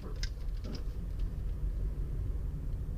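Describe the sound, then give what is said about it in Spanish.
Inside a car while driving, a constant low rumble of engine and road noise runs steadily, with a few faint higher ticks early on. “Me encuentro manejando”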